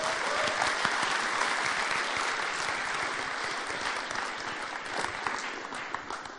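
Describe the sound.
Audience applause welcoming a morning speaker to the stage: dense, steady clapping from many hands that stays loud and even for the whole stretch, with no talk over it.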